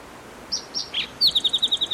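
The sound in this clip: Spotted towhee song recorded at Cherry Creek: three short, high notes, then a rapid buzzy trill of about eight repeated notes, clear and alone over faint background hiss.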